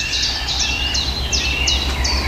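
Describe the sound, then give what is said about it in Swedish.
Birdsong from blackcaps and garden warblers: a few short, bright chirping phrases repeat at a steady pace over a constant low background hum. “Svarthättan igen och grönsångarna är väldigt påtagliga här nu.”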